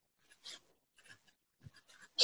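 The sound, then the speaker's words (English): A note is written down by hand: faint, scratchy pen strokes in a few short, uneven bursts with pauses between them, ending in a louder scrape. “Sorry, just writing this down.”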